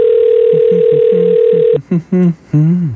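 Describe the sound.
A telephone dial tone hums steadily and evenly for under two seconds with a voice over it, then cuts off as people talk.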